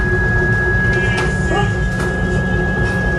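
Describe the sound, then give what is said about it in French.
A CNC milling machine cutting a part gives a steady grinding drone with a constant high whine above it, unbroken throughout. “C'est une fraiseuse à commande numérique. Donc c'est à la fois sur la machine et par ordinateur. Oui, c'est ça. C'est l'ordinateur qui dit à la fraiseuse de faire telle ou telle chose.”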